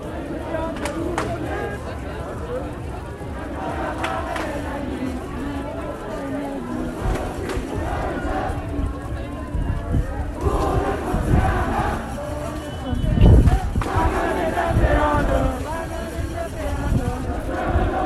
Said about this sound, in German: Das hier ist die Klimademonstration von Fridays for Future am 25. März 2022 in Münster.